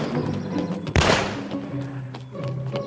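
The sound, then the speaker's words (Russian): A single pistol gunshot rings out in a film scene on a dark street, fired by a man in a suit: one sudden sharp crack over a steady background bed. “Мужчина в костюме стреляет.”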